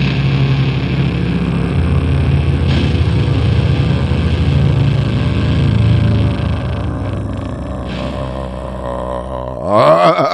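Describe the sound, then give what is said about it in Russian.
Motor engines rev loudly in a steady, throaty drone with shifting tones, ending in a sharp rising roar. “Извините, да. Моторы.”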